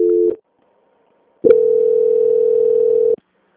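A telephone line tone plays while a bank call is transferred: a short steady tone stops, then after a silent gap a second steady, buzzing tone holds for nearly two seconds before cutting off abruptly.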